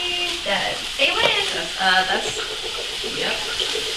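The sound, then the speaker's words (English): Chopped sweet onion sizzles and fries as it browns in virgin olive oil in a frying pan. A steady hiss runs throughout, with people talking over it. “What we've done now, we've just thrown the chopped sweet onion into the frying pan. We are browning it in the virgin olive oil.”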